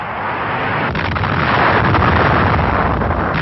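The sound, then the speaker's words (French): An H-bomb dropped from an aircraft flying at 11,000 meters in the Bikini atoll test gives a deep, sustained roar, a loud broad rumble that holds steady throughout with no clear single blast, and no voices. “Pour la première fois, la bombe a été larguée d'un avion volant à 11 000 mètres au-dessus d'une cible tracée sur l'îlot de Namur.”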